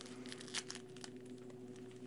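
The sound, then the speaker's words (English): Crinkly tearing of the foil wrapper on a pack of Topps 2026 Series 1 baseball cards, several short crackling bursts that are faint over a steady low hum. “so I'm getting ready to open up a pack of 2026 Series 1 cards here from”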